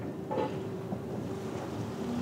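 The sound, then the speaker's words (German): A small fast ferry of the Töverland-Express, which shuttles between Norddeich and Juist, goes back into the water after about four weeks out of service. A steady wash and rumble runs throughout with wind noise and a brief faint tone. “Dieser Tövi geht wieder zu Wasser. Eine seiner kleinen Schnellfähren, die mehrmals täglich zwischen Norddeich und Jüst pendeln.”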